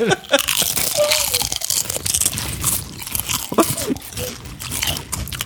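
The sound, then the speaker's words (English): Several people crunch chips right beside the microphones, with the gain turned up. Many crisp, sharp crunches and chewing sounds overlap, mixed with giggles and laughter. “Get ready. You're about to hear all of us eat a chip. All right. I'm gonna put the gain up so much it's just like, oh, you hear. Already? All right, here we go. Right next to the microphones, boys.”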